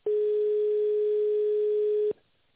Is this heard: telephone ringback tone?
yes

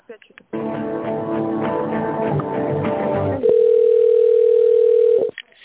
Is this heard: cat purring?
no

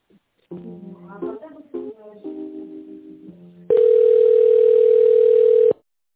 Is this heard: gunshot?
no

